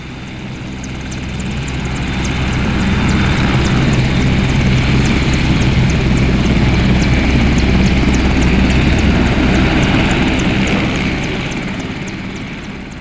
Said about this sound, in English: you'll certainly come away with the memory of a distinctive sound coming from its composite blades. I call it the cormorant whistle, and it sounds like this.